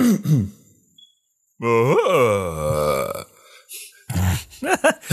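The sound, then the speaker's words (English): A voice imitates the groaning noises of the cartoon Devilman, Spike. One long, strained guttural groan climbs and then sags in pitch, and shorter grunting bursts follow it. “For old Spike, the Devil Man, his American voice is, let me see if I can approximate it.”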